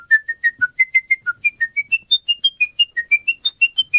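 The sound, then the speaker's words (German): A person whistles an opera aria from memory: many short, clear, pure notes in a quick, steady rhythm. The line climbs overall and then hovers in a high register, with no other sounds. “wie Sie die Königin der Nacht aus der Zauberflöte gepfiffen haben”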